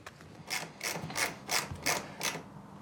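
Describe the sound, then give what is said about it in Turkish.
A second screw being driven into a freshly drilled hole to hold a loose motor in place, heard as six quiet, evenly spaced rasping, ratchet-like turns. “İkinci bir delik açacağım ve bir vida daha takacağım.”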